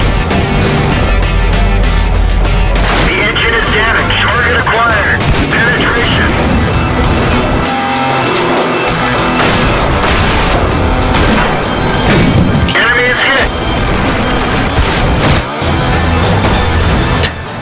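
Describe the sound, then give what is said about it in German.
Tank battle gunfire and explosions from an online tactical tank shooter video game: loud, dense booms and sharp shots follow one another without pause, with voice-like sounds mixed into the din. “heute geht es um World of Tanks. Panzer, taktische Simulationsshooter, online geballere.”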